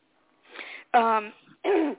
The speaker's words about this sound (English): I apologize for any coughing, too. I've had some sinus things going on.